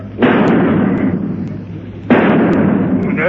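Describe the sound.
Two loud gunshots fired at a fly crawling up a wall, each a sharp blast followed by a long, noisy, rumbling tail.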